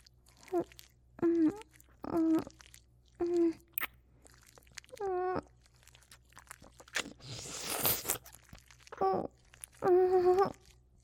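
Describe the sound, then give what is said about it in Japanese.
Quiet ASMR ear-nibbling mouth sounds: soft biting and crunching noises mixed with short voiced murmurs, and a longer rustling, crinkling burst partway through. “我慢できないです。耳噛んでもいいですか？”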